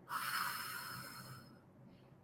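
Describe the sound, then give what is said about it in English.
One slow breath out through the mouth during a paced 4-4-8 breathing exercise, a steady, breathy hiss lasting over a second before tapering off into quiet. “Breathe in, 3, 4, hold it, 3, 4, out through the mouth,”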